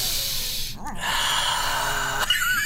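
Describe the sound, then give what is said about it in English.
Breathing in unison during a needle procedure: a few airy, hissing breaths in and out, fairly loud with no talk over them. “All right, breathe with me.”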